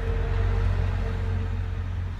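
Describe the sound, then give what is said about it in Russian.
A bus drives off nearby with a low, steady engine rumble and a faint humming tone that hold without clear change throughout. “видите, там какой-то автобус что ли поехал.”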